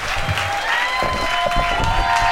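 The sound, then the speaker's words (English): An audience applauding to welcome a performer back, with dense, steady clapping and a little crowd noise throughout. “So let's welcome back Jeremiah. Big hand for Jeremiah, everybody. Big hand for Jeremiah.”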